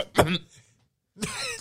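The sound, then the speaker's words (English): A single short, rasping throat clear from someone with something caught in the throat, followed by a brief pause and then a voice talking. “Sorry, my voice is about to change. I've got something caught in my throat.”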